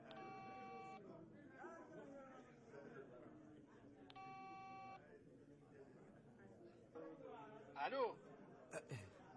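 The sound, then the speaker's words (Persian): A coin payphone being dialed: two electronic tone bursts of about a second each, separated by a pause, amid voices and background chatter. “ببین اصلا تو شماره رو بگی، من خودم سکه میندازم تو دستگاه.”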